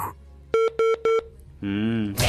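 Telephone dialing for a radio call-in: three short, evenly spaced touch-tone beeps, then a longer, buzzier tone and a brief rush of noise.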